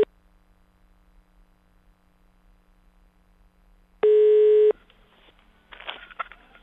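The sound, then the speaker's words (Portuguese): A telephone tone sounds once as a call is placed, a single steady burst of under a second after near-silence with a faint line hum, followed by faint, scattered line noise. “vamos ligar para ele, liga aí, vai, liga, liga.”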